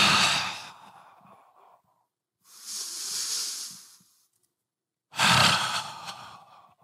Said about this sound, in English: I take 10 deep breaths like this.